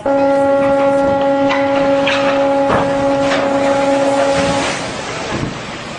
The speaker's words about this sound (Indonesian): Suara apa itu, Kak? Itu suara kapal.